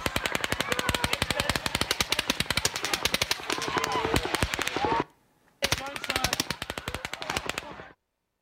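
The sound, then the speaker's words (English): Rapid machine gun fire during an attack on an open-air concert, a long dense burst of sharp shots that breaks off for a moment, then resumes in another sustained volley before stopping. “an open air concert with a machine gun. We have a quick 10-second clip of the attack that we'll play for you now.”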